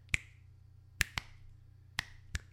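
Five sharp finger snaps made with the right hand, crisp, bright clicks spaced irregularly over a low steady hum, with no talking between them.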